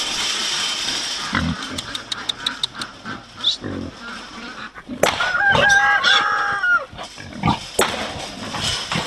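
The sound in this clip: Piglet squeals on a farm property: harsh, high cries in a few bursts, loudest and most piercing in the second half, after earlier clicks and shuffling handling noises.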